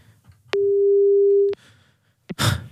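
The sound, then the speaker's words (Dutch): A phone line gives one long, steady ringback tone while a call is placed to someone. A short click and a brief burst of rough noise follow after a pause. “dan gaan we hem nu weer bellen. Als hij nu niet opneemt, hè, dan is het ook klaar.”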